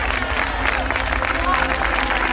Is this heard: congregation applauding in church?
yes